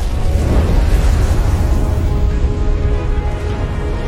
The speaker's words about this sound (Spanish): Durante las horas siguientes, el volcán de fuego entra en erupción.